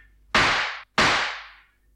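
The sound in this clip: Two sharp, loud pistol shots from a duel, one fired upward, each a sudden bang followed by a long, fading ring, about half a second apart.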